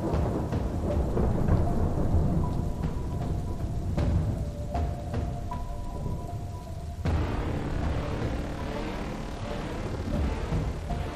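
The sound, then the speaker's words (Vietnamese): Steady heavy rain falls during a typhoon storm, with a constant broad wash of noise. Deep thunder rumbles through the downpour. “Đang chịu ảnh hưởng của bão, cho nên trời lúc nào cũng âm u, mưa rì rào suốt đêm ngày.”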